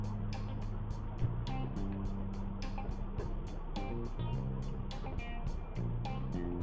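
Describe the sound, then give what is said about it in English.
Steady road roar inside a car cruising at about 70 miles an hour on the drive back to San Antonio. A continuous even rumble lasts throughout, with a shifting tonal drone layered over it. “I'm driving, doing about 70 miles an hour. Like I said, driving back to San Antonio.”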